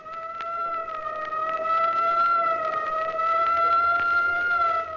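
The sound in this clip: A fire engine siren sounds continuously, a steady, loud, harmonic tone with a slight waver in pitch, held throughout with no voices.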